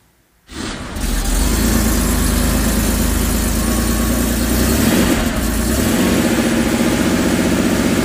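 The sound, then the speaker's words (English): A Porsche car engine bursts in after a brief silence and runs at a steady, loud, rumbling idle, a dense low drone that holds evenly to the end. “See what model it is. So this is Porsche number one.”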